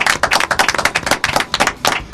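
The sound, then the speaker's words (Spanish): Loud, dense applause, with many rapid claps overlapping in a continuous, even burst from start to finish. “Un aplauso.”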